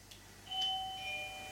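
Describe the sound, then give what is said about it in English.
An electronic doorbell chime, pressed to call staff in a shared residence, rings out softly as a two-tone ding-dong whose clear notes hold steadily over a quiet background. “Press the doorbell. Yeah, here's the doorbell.”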